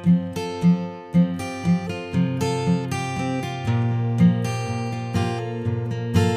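Plucked notes from a high-quality custom-built guitar made by a luthier and played by a music teacher. A few repeated low notes open the passage, then fuller ringing chords continue alone.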